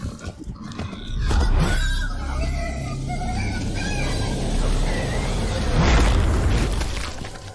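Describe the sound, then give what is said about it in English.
Explosions in a video game, with two heavy booming bursts of broad noise rising out of a dense, continuous wash of game sound and rumble. “That thing just exploded”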